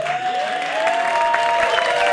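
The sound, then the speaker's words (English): A studio audience at a late-night talk show applauds in steady, dense clapping that keeps up evenly through the short stretch. “We're clapping for my tease.”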